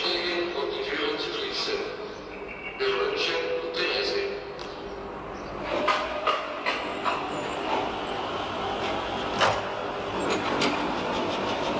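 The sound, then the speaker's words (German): A train running along the track, heard as a steady low rumble with irregular metallic clacks and knocks scattered through it at moderate loudness. “Das ist ein Zug.”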